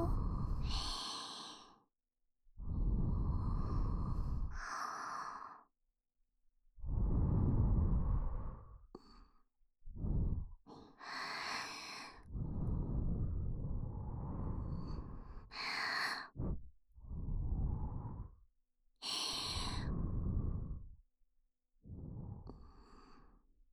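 Soft breath blown repeatedly onto an older brother to wake him, many breathy whooshing puffs of varying length, separated by short pauses.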